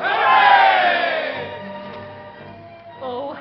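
A crowd shouts a loud, sustained hooray for the Jubilee that gradually fades, and a shorter shout starts up again just before the end.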